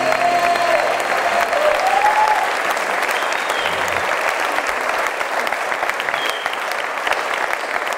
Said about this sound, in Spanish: Señoras, señores, extendemos el aplauso para recibir en este escenario a la trompeta de Gillespie.